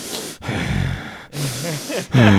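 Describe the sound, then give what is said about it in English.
Breathy, labored gasping for air, voiced in imitation of a very overweight man struggling to breathe while a stethoscope is held to his chest. A few rasping inhale-like bursts follow one another with brief pauses, the last one louder. “All I hear is you like gasping for air because you're so fat that you can't breathe.”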